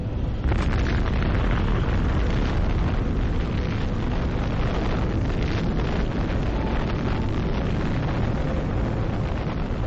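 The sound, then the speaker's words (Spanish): An atomic bomb test explosion sounds as a dense, rushing roar of deep rumbling noise. It holds steady and loud for about ten seconds with no clear separate blasts. “Esta prueba demostraba sin duda alguna el increíble poder de la bomba atómica.”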